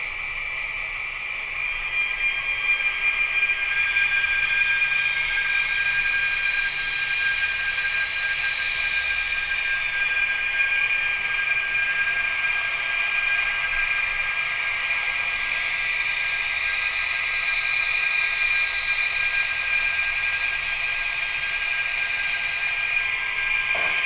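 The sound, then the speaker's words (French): A toy locomotive runs along its track, sending out a steady high-pitched motor whine with a constant hiss and slowly shifting upper tones that continue evenly without talk. “on va la faire rouler un petit peu. Donc, j'envoie ma locomotive vers la gauche.”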